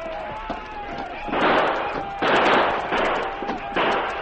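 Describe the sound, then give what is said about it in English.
Rifle gunfire aimed at attackers closing in on a defended post: four loud bursts of shots in a steady rhythm over a faint background tone, with a few smaller cracks before them. “For the next 15 minutes, the sergeant and Chet fired steadily at the menacing shadows, creeping closer and closer to the post.”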